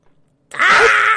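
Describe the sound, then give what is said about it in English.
A woman screams in a movie scene. After a faint low murmur, a loud, high, sustained scream bursts in suddenly and holds steady to the end. “Oh my god, she's screaming.”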